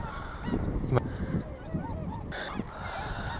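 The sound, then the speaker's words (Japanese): Swans honk as they take off and fly away, a few short nasal calls rising over a steady low rumble at moderate loudness. “白鳥くんたち飛んでいってしまいますな。”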